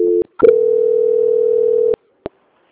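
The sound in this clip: A telephone line tone sounds during a call transfer: a brief tone and a click, then one long, steady, loud tone, followed by a few sharp clicks.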